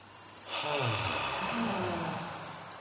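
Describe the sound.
One deep breath is drawn in and let out slowly during a qi gong and meditation exercise, a soft airy rush that swells and then fades, with no words.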